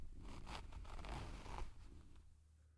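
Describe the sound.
A trouser zipper is pulled open in a faint, rasping zip lasting nearly three seconds. Its ragged teeth-clicking texture thins out toward the end.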